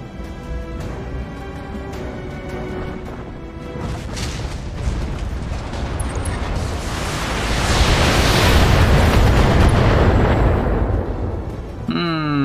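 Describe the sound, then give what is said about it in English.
A missile tank firing missile salvos in a video game, heard as dense, heavy booming rumble that runs continuously and swells louder in the latter half before easing slightly at the end. “A missile tank shoots at the Blackjack. Another missile salvo versus the Blackjack.”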